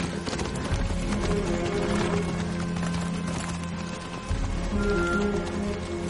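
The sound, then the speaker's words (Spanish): A riderless horse gallops with fast, steady drumming hoofbeats over continuous rushing background noise. The sound stays moderately loud throughout. “Simón se da cuenta de que el caballo de la joven galopa sin jinete”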